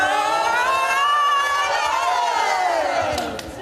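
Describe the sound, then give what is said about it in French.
A crowd cheers, shouts and whoops as the audience enters a talent show, a loud, sustained roar of many voices. “Bravo à toutes, on va faire rentrer le public. C'est parti !”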